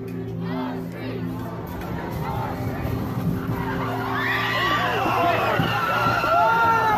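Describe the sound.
A car drives into a crowd of people at a street protest: rough engine and tyre noise mixed with a rising clamour of shouting and yelling voices, loud and continuous throughout.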